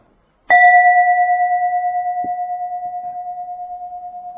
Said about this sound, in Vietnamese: thí dụ giờ thầy muốn cầm cái chuông này để mà đánh cái chuông